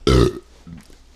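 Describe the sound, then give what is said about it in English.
A loud, short burp after shotgunning a can of hard seltzer, one deep croaking belch followed by a few faint, low afterthroat sounds. “Big drink. Fun fact, the first thing I've ever shotgunned was a White Claw. Big mistake. Big burp.”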